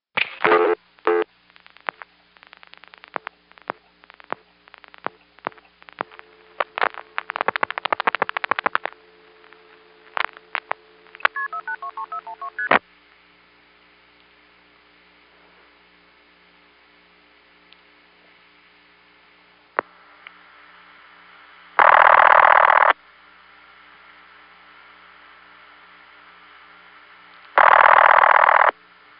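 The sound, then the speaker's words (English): Telephone dialing and switching tones on a long-distance trunk call, dialed straight through to the end office over T-carrier: a run of clicks and short tone bursts, then a quiet humming line and two long, loud ringback bursts. “you dial right through to the end office, so it will immediately begin to ring”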